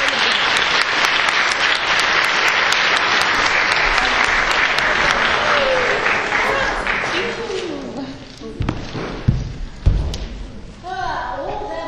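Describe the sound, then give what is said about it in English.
Audience applause welcoming a speaker to the stage: dense, sustained clapping holds steady for about eight seconds, then thins out, and a few heavy thumps punctuate the fading end. “So I would really appreciate if you put your hands together and help me welcome the courageous, the beautiful,”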